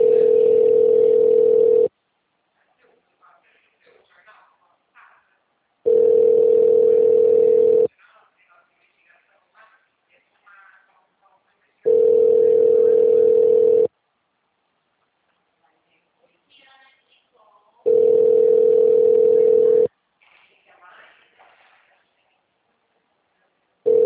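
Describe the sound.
A telephone ringback tone plays while an automated call connects: four steady, single-pitched tones of about two seconds each, spaced by roughly four seconds of near silence, with a fifth tone just starting at the end.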